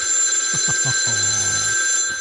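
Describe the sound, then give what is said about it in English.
A telephone rings with an incoming call, a steady electronic ring tone held throughout, with a few short low tonal blips underneath. “Oh, I almost don't want to answer this. I see the caller ID here.”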